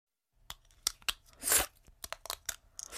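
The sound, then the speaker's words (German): Crisp plastic clicks and crunchy snaps as an Invisalign dental aligner is pried off the teeth: a string of short, sharp clicks with one longer crackling stretch in the middle, alone with no talk. “have taken out my Invisalign”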